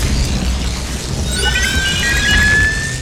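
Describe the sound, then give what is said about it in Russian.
An explosion as a capsule bursts open from a regenerator into clouds of steam: a loud, sustained low roar with thin high whining tones that enter midway and persist, with no single sharp bang. “Все смотрят, как капсула со взрывом открывается.”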